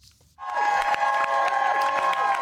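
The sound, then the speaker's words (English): A crowd bursts into loud applause and cheering as the Vice President arrives at a campaign office in Wilmington, Delaware; dense clapping starts abruptly after a quiet moment and continues steadily, with sustained cheering tones throughout. “Greeted by a resounding applause, Vice President Harris”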